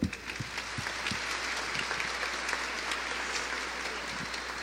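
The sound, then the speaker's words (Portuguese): Applause for the catechists fills a church celebration. Several sharp claps stand out at the start, then a steady patter of many hands clapping continues at a fairly soft level. “vamos dar um aplauso para estes”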